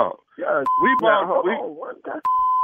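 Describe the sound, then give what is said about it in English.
Electronic telephone tones while a call is placed: two steady, sustained beeps of the same pitch sound between and beneath a man's talking. “Let me get my wife on the phone. Hold on a minute.”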